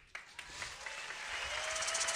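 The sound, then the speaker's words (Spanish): Audience applause at a concert by a vocal group: clapping breaks out sharply and quickly swells into a steady, dense patter that continues to the end. “Aplausos”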